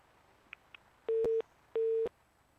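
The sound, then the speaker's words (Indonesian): A busy tone on a phone line after a dropped call gives two steady, mid-pitched beeps at an even spacing. It is faint overall, with a couple of soft clicks before the beeps. “Wah, nampaknya terputus panggilannya, Ibu.”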